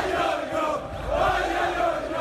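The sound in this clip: Les Herbiers football players sing their victory chant, a group of voices chanting loudly and continuously together in a rough, crowded blend.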